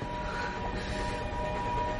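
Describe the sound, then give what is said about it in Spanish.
A steam train crossing a plain gives a continuous, loud rolling rumble with a faint sustained tone riding above it, steady throughout with no pauses. “Un tren a vapor cruza una llanura.”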